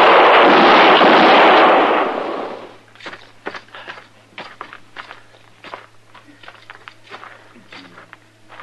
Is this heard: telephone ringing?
no